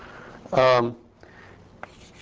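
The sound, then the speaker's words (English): Writing on a board during a physics lecture: one brief, loud, squeaky stroke, followed by a few faint scratches and a light tap. “Okay, so once I go over to conformal time, can you read if I write down here?”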